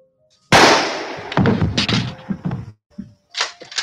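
A single loud gunshot from the film Night of the Living Dead: a sudden sharp crack with a decaying rumble, followed by several softer thuds and knocks.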